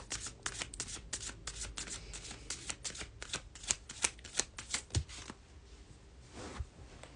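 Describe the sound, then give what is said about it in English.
Tarot cards shuffled for a card pull give a rapid run of crisp riffling flicks and soft slaps, many in quick succession. The sound is steady and fairly quiet, with no voices. “I would love a card pull for this week if you have time. Yes, absolutely.”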